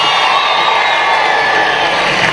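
A concert audience at a salsa show cheers and applauds for two singers, a loud, continuous crowd roar with whoops and shouts throughout.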